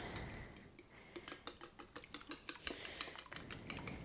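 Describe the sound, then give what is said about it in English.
A dinner fork beating two eggs in a small bowl, whites and yolks mixed together: a fairly faint run of many quick, rhythmic metallic clicks and taps, with no talk. “get yourself a small whisk or just a dinner fork and beat that up.”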